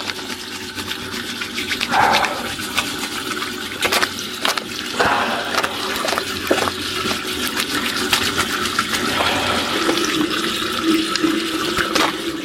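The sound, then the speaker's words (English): Running tap water pours steadily while hands are washed beneath it in a kitchen during chutney making, a continuous splashing hiss lasting throughout. “I can wash my hands. A really good wash.”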